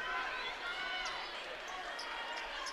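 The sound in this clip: Basketball dribbling during a high school game between Adams and Plymouth, with faint, repeated bounces under steady crowd noise and voices.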